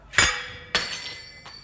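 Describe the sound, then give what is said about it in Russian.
A glass goblet holding a poisoned drink is smashed: three sharp, bright glassy strikes, each with a high ringing tail. The first is loudest and the last is fainter. “Но ваше здоровье, капитан Григорьев, могло сильно пошатнуться, если бы я не разбил этот бокал с отравленным напитком миледи”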